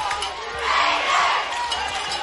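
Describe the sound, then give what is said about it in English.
A football stadium crowd on its feet chanting, a loud, sustained roar of many voices that swells through the middle and stays steady to the end. “You hear the Raider crowd on their feet chanting Raiders.”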